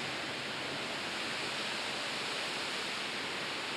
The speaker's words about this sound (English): It's good rain. How many of you didn't close your window? I didn't close my own too. So relax. You get home and find wet bed.